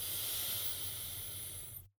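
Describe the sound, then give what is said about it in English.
A deep inhale through the nose at the start of a relaxing meditation: a steady, airy hiss holding for nearly two seconds, then cutting off abruptly into silence. “So take a nice deep inhale through your nose.”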